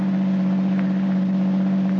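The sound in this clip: A car engine drones as the car drives away up a narrow side road, a steady low hum with no change in loudness and no voices.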